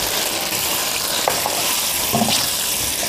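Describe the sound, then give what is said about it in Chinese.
Stir-frying in a hot pan with light soy sauce, oyster sauce, sugar and chicken bouillon powder, a loud, steady sizzle broken by a few soft scraping stirs. “少量的生抽，少量的蚝油，翻炒一下，再加入少量的糖以及鸡精。”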